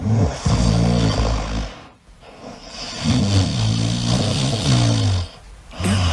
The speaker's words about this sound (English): What's wrong with that? That's a peaceful snore.